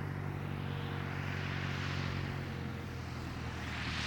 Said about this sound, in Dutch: Het gesputter van een klein vliegtuigje.